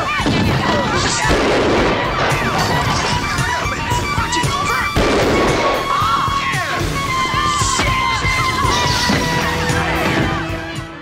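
Gunfire rattles through a film scene in dense, continuous bursts. It is loud throughout, mixed with yells, crashes and crowd noise.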